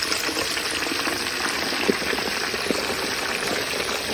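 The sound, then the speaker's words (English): Food sizzles as it is slowly lowered into 350-degree peanut oil for deep-frying: a dense, loud, steady crackling hiss with scattered pops throughout, and no voices. “Watch, he'll dip it slowly into 350-degree peanut oil. Listen to this ASMR right here.”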